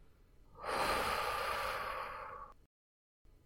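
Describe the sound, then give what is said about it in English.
A deep breath during a guided breathing exercise: one long, airy rush of air that swells quickly, holds steady for about two seconds, then cuts off into silence. “Then bring in your first deeper inhale. And a full exhale.”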